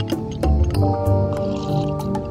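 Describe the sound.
Gin poured over ice for a drink, with wet liquid sloshing and a few clinking knocks over a steady, low background hum.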